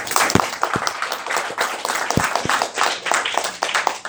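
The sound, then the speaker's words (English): Audience at a convention meeting breaks into warm, sustained applause to welcome a speaker, many hands clapping densely and evenly, with a few louder individual claps standing out. “So I will join you and ask you to join me in giving her a big warm welcome.”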